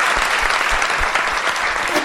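A studio audience applauds at the end of a live special show, a dense, steady wash of many hands clapping together, loud and even throughout with no voices standing out.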